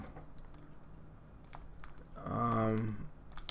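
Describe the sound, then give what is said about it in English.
Sharp computer mouse clicks, a few brief taps scattered over low background noise, with a short spell of voice partway through. “jeez, come on, this stupid mouse. I'm trying to click on the story.”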